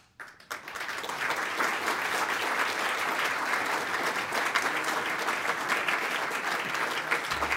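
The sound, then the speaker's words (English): An audience at a City Club forum in Cleveland applauds with many hands clapping in a dense, steady clatter that starts abruptly and holds at an even, loud level throughout. “Let's give this gentleman another round of Cleveland applause.”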